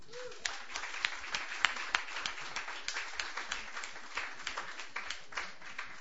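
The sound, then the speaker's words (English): An audience at an open mic night applauds to welcome a performer. Many crisp, scattered hand claps keep a fairly even, moderate level for about six seconds, with no voices rising above them. “Please put your hands together. Welcome 17-year-old Robert Mulder.”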